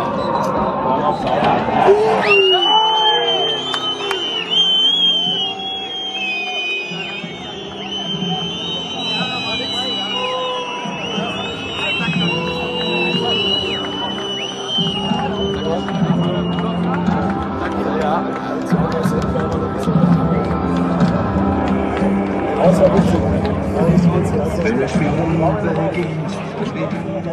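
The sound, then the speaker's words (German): A football stadium crowd around the final whistle, recorded from the west-end standing terrace: a dense, loud roar of shouting and many voices that stays steady for the whole stretch. “Und ich habe mir gedacht, ich nehme mal die Momente rund um den Abpfiff auf. Das ist das Ergebnis.”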